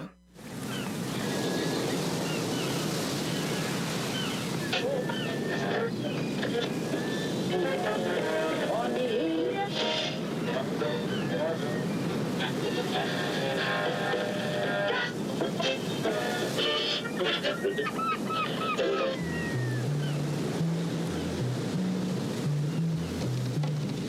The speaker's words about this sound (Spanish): Ruge la mar embravecida